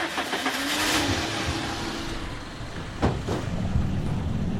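A car driving through the streets of Nabatieh, Lebanon, with a steady engine hum and road noise throughout and a couple of brief knocks midway; no one speaks.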